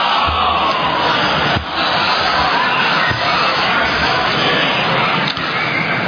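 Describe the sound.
Congregation reciting salawat in unison in honour of Fatima Masumeh, a loud, dense, continuous mass of voices that holds steady throughout with only brief dips.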